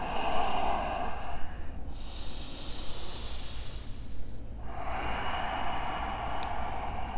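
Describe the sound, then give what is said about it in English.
Yogic ujjayi breathing through a narrowed throat produces loud, airy hissing breaths, a few long drawn-out cycles separated by brief quieter pauses. “Your ujjayi breath is a, it's really a tool that you can lengthen and shorten as much as you need.”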